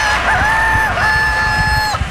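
A rooster crows in one long, drawn-out call with a brief dip in pitch midway, loud over a rough low-end rumble.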